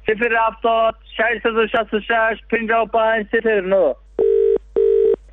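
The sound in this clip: A telephone line connects a caller: a voice talks in quick phrases, then two loud, steady electronic tone bursts of equal length sound, separated by a short gap.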